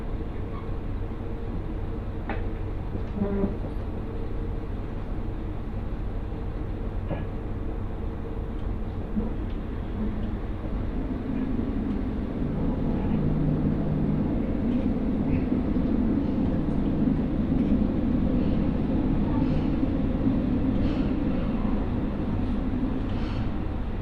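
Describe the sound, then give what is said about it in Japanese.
A Mizushima Rinkai Railway train on the Kurashiki-to-Mitsubishi Motors line pulls into Yayoi station with a steady, continuous rolling rumble and hum that grows fuller and brighter partway through. “弥生に到着いたします。堀口は左側です。”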